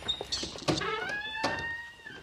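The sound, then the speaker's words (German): An apartment door is opened with a small phone card: a few scraping clicks at the latch, then a drawn-out squeaky creak as the door swings open. “Keine Kreditkarte, sondern die kleine Telefonkarte, mit der er dann die Tür aufmacht.”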